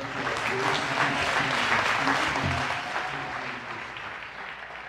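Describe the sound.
An audience applauding to welcome a pastor in church, giving a full, dense burst of clapping that stays strong for about three seconds, then slowly tapers off while low tones hum underneath.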